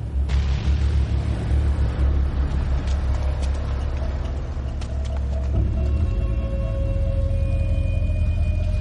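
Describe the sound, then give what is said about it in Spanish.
Low rumble of a taxi moving slowly through a car park, deep and steady with a few sharp clicks, easing off after about six seconds. “Luke y Chris se miran. Salen. Corren por el parking. El taxi circula lentamente.”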